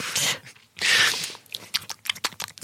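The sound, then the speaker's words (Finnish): Smacking lips and crunchy chewing of food: two long loud crunching bites, then many short wet clicks and smacks in an irregular rhythm. “Varmaan maiskuttelen täällä.”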